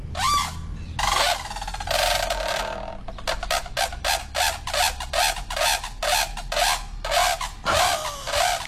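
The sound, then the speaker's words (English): Trumpeting calls of a brolga, loud, harsh honking notes: a few drawn-out calls, then a rapid run of many short repeated blasts, ending with longer calls again. “They trumpet, they call it. Oh, really? Do you want me to play it for you? Yes. Yes, please. Here you go. Here's a trumpeting brolga”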